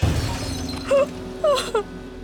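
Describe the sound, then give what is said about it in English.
A mirror smashed with a sword, heard as a few short, bright bursts of glass breaking and tinkling, separated by brief gaps over a quiet background. “Izanagi's heart hardened with rage, and he smashed the mirror with his sword.”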